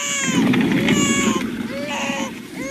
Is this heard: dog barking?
no